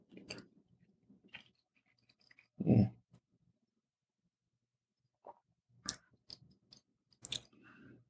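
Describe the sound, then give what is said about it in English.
Chewing sounds from someone eating meat while tasting it: irregular wet bites and crunches in short bursts, one louder chomp standing out, separated by quiet pauses. “Let me try that again. The reason is because I tasted something very, very different when I tasted the meat. Got a very different flavor from it this time.”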